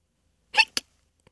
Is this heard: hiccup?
yes